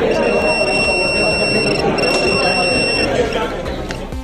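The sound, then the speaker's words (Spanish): High-pitched electronic beeping from a detector that sweeps university exam rooms for electronic and data-transmission devices. It holds steady with one brief break over a murmur of voices, then cuts off before the end. “que realizan barridos aleatorios para detectar el uso de dispositivos electrónicos y de transmisión de datos, lo que es copiar basándose en la inteligencia artificial. En caso de que se localice uno, suena esto.”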